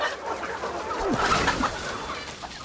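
Chicken clucking, a few short low calls over a steady rustling background, brief and moderately quiet.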